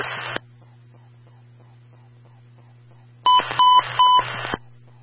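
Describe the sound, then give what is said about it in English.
An emergency transmission tone test on a fire department radio: a steady low hum under two bursts of harsh buzzing tones, the second longer with stepped beeps. “Company standby for the emergency transmission tone test.”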